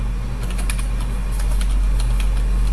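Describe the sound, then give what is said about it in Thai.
Typing on a computer keyboard: irregular, sharp key clicks come in short bursts over a steady low hum. “ถ้าเราจะพิมพ์ยาวๆเราก็ต้องพิมพ์แล้วก็เว้นวรรคข้อความไปเรื่อยๆนะคะ”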